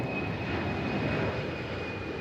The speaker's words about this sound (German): Der Pilot hat sich einen Spaß erlaubt. Im Flugsimulator. In einem echten Flugzeug würde er das steile Manöver natürlich nie fliegen.